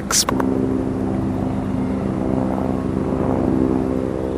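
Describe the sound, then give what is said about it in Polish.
A helicopter flies overhead, a loud, steady droning rotor with sustained tonal hum throughout, preceded by a brief sharp knock at the start. “O, helikopter leci. Ciekawe, czy się ze mną zgadzają ci z helikoptera.”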